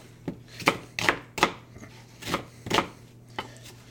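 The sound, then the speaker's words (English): A knife chops onions on a board: several crisp, sharp knocks in an uneven rhythm with short gaps between strikes, moderately loud and alone without talk. “I'm going to chop up some onions.”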